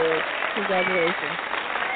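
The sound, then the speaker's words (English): Clapping-audience sound effect dropped in as a congratulatory cue, a steady, dense patter of many hands that runs the whole moment while a voice talks over it. “you're going to get the clapping audience.”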